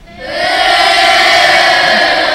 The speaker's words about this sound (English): Now give it up for our own messenger of doom, Dan Downing.